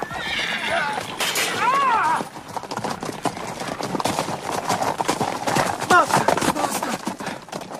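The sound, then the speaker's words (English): A horse galloping and neighing, with rapid hoofbeats running throughout and two shrill whinnies rising above them, loud and busy. “King Arthur's galloping.”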